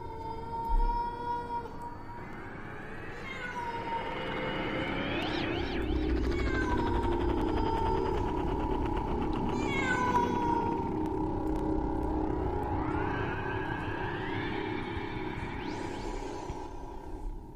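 A cat wails on a courtyard wall at night in long, unbroken, mournful yowls. The pitch swells upward again and again over a steady low rumble.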